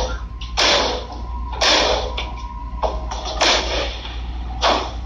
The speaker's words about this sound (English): When he turns the gun towards Renita, firing 3 shots at her, mortally wounding her, live on Facebook.